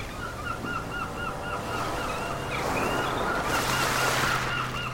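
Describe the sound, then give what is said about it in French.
Seagull cries ring out repeatedly over steadily rushing sea waves: sharp, bright calls in quick succession above a continuous wash of surf that swells louder toward the end. “Et si je vous disais que je suis capable d'amener la mer à Paris ? Je crois que je vais ajouter un peu plus de mouettes.”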